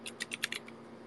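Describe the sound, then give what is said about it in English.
Six quick keystrokes on a computer keyboard, light and fairly faint, tapped in a slightly uneven rhythm within about a second. “Let me just type it in.”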